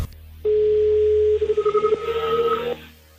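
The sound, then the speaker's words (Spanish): A telephone dials a call: a steady mid-pitched tone, then a quick string of pulsed beeps, then another steady tone that stops abruptly. There is no talk. “Estoy marcando, ¿eh? Vale.”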